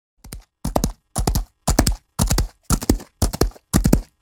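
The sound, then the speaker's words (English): Hoofbeats of horses galloping in fields, a regular rhythm of loud clip-clop bursts, each a quick cluster of hits separated by short silences, repeating evenly from start to end with no voices. “Eleanor and Dainty are galloping in the fields enjoying their nice weather.”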